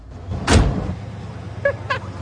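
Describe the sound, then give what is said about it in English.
Ambulance doors being closed: a single dull, heavy thud early on, followed by a low, quiet rumble with a couple of brief faint squeaks. “the ambulance doors are closed”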